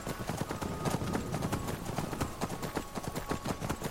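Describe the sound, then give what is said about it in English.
Horse hooves clip-clopping in a video game as several horses walk along, a steady stream of many sharp, evenly spaced hoof strikes over a constant faint background, with no talk. “Now, normally I would take the horses down and stable them at Catla's”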